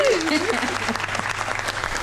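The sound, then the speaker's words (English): A small group claps on request during a casual interview about a consignment business, a quick run of sharp, loud claps lasting about two seconds, with a brief voiced whoop at the start. “Do those claps again.”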